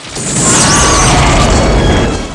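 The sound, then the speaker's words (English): Explosions erupt around a guarded camp during an action-film assault, a loud, sustained rumbling roar that swells in after a brief quiet start and eases slightly at the close. “Rambo takes out more guards as explosions erupt around the camp.”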